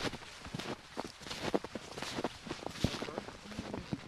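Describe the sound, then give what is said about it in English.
Soft crunching footsteps of people snowshoeing along a snowy woodland trail, many steady steps, faint and continuous. “So we're walking along the trail still. We're getting deeper into the woods.”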